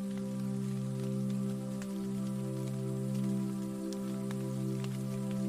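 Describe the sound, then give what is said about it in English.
Light rain falls outside a window as a soft, even patter with scattered ticks of single drops. A low, sustained droning hum runs underneath, and the whole clip stays quiet and unbroken. “Tucked up in bed, with light rain falling outside the window, Lily”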